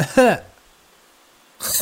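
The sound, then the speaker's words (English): A voice imitates someone coughing while wearing a face mask: one short, muffled, throaty burst, followed by a quiet pause. “Some guy, or somebody, had to cough while they had a mask on, and they did this.”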